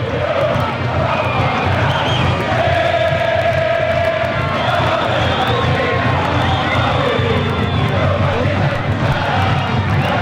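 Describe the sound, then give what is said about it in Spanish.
Estudiantes (Pincha) away fans cheer at a football match, a dense, loud crowd roar that holds steady through the whole clip with shouts rising out of it. “Se hace escuchar la gente del pincha, escuchá los que han llegado.”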